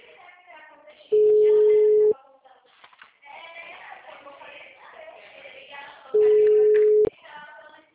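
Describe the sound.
A telephone ringback tone plays while a call is being placed. It gives two steady, loud, one-second tones about five seconds apart, with people talking quietly in between.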